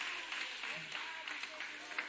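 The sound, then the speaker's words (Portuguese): An audience at a church service clapping their hands in praise. The clapping is dense and continuous, with voices mixed in under it throughout. “Quem pode bater as palmas bem alegre para o Senhor?”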